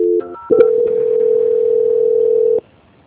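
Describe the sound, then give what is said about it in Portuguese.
Telephone line tones play during a call transfer. A short, quick burst of stepped electronic beeps leads into a steady, loud, unbroken tone that holds for about two seconds and then cuts off abruptly. “Transferindo a ligação.”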